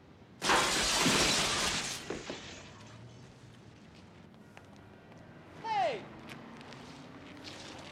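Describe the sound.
Window glass shatters loudly as a man is thrown through it, a sudden bright crash lasting over a second, followed by quieter scattered sounds and a brief voice.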